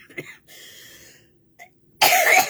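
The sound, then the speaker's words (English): Coughing from someone with a cold: a few harsh, dry coughs with a throat-clearing quality, separated by short pauses, and the final cough is the loudest and longest. “coughing my head off”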